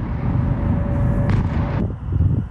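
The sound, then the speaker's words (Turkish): Explosions sound during a Russian missile and drone attack on Kyiv: a loud, continuous rumbling roar with a harsher burst swelling in the middle. “Patlamalar ardı ardına geldi. Sivil yerleşim yerleri vuruldu.”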